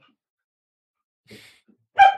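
A dog playing after a thrown ball gives two short vocal sounds after a stretch of silence, a soft huff followed by a louder, sharp single bark.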